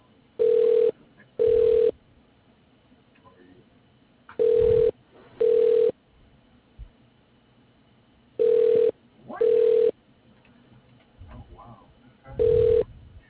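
A phone line ringing while a call is transferred to an extension: steady ring tones come in pairs, three full pairs and then a seventh ring, with quiet gaps between them.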